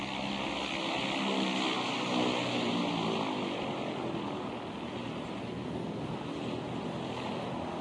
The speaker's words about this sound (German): Plötzlich steht er mitten auf dem gesuchten Privatflugplatz. Gerade ist ein Motorsegler gelandet.